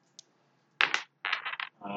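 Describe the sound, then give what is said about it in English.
Two dice rolled during a tabletop role-playing game, giving quick, bright rattling clacks in two short bursts after a tiny tick. A voice begins right at the end. “Roll two dice”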